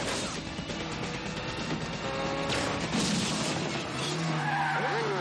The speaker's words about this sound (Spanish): apunta ágilmente al auto mientras este derrapa de forma peligrosa.